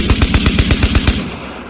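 Loud automatic gunfire sound effect: a rapid, evenly spaced burst of many sharp shots with heavy low thumps, ending in a short fading tail.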